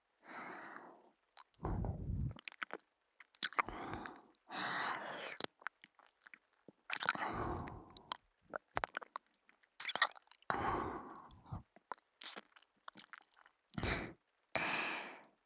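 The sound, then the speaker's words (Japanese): Gentle biting and chewing, soft and quiet, in many wet, squishy bursts separated by short silences, with occasional breathy sighs between them. “優しく噛むだけですからね。ほら、こんな風に。”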